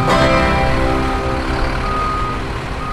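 A vehicle's reversing beeps sound while it parks, repeating over a constant engine rumble at a fairly loud, even level.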